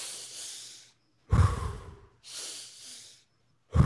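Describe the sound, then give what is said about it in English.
Breathing through the nose in a two-inhales-to-one-exhale exercise: a few loud, airy nasal breaths in and out, each with a breathy hiss, separated by short pauses, with no talking. “two inhales to an exhale, right? Two breaths in to a breath out. But think about it through the nose”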